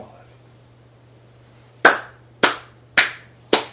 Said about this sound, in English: I clap the man. I applaud the man.